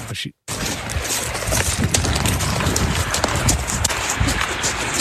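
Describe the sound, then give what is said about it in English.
Quick, steady crunching footsteps of someone running on gravel over a dense, continuous rumble from a rock slide near a large rock cliff face, after a brief dropout of silence at the start. “that like noise in the background is what she was just describing at the beginning of the video, talking about rock slides. Yeah, massive rock slide happens.”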